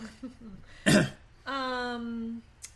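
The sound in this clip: Someone clears a tickle from their throat with one short, rough rasp, then follows with a sustained voiced hum, and a faint voice can be heard briefly beforehand.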